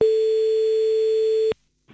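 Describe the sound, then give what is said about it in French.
A telephone ringing tone sounds while a call to a guest connects: one loud, steady, mid-pitched tone held for about a second and a half, then a sudden cut to near silence and a faint sound at the end. “J'appelle sans plus attendre Vincent Gunter.”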